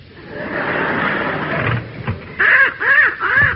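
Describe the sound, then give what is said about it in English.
A young crow gives three harsh, rasping caws in quick succession. A brief stretch of low rustling noise comes before them, with no talk. “What's that you've got? A little crow, ma'am.”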